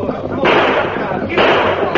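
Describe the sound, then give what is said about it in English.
Two gunshots ring out in a western radio drama as broad, loud bursts about a second apart, over a dense, noisy backdrop with voices. “He's spurring his horse, trying to get away. You on the black. Rein up or we'll blast you full of lead. He's shooting.”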